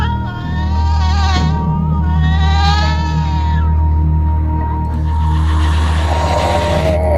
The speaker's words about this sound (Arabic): وبدأ صوت تاني يطلع مع صوت القطة.